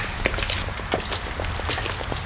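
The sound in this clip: Footsteps of people walking across a street toward a building, a steady series of light, crisp steps over a constant background hiss, with no talking.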